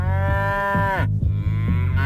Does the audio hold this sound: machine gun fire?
no